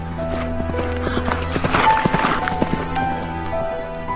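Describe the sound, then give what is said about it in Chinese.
A horse gallops with its rider, the rapid, continuous clip-clop of hooves holding a steady pace throughout. “大卫从家中逃出之后，骑着马，拼命的向前飞奔。”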